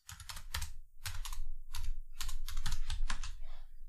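Someone types on a computer keyboard to search online: quick, fairly soft bursts of key clicks broken by brief pauses.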